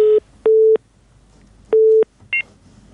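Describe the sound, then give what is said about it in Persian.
Telephone tones sound after a caller's line is cut off during a phone-in call: three steady mid-pitched beeps at uneven intervals, the last followed by a short, higher chirp, with almost nothing else in between. “بله فکر میکنم تماس شان قطع شد”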